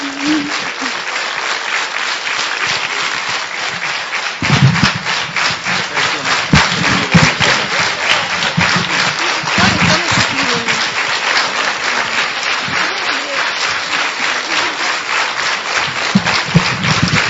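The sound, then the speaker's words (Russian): An audience applauding in a hall, a dense, steady wash of clapping that keeps going for the whole stretch at an even, fairly loud level. “Громче можно хлопать. Еще громче. Сейчас будет впечатление, что у нас полный зал.”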